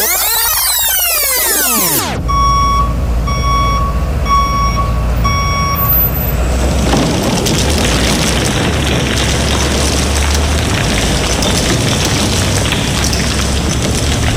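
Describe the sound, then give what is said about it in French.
Reversing beeps from a ten-wheeler truck in a parking lot: several evenly spaced, high electronic beeps over a loud, steady engine rumble, then a dense, sustained roaring crash. “peux-tu bien me dire pourquoi il y a un 10 roues dans le stationnement? Il y a plein de garnottes dans notre bureau.”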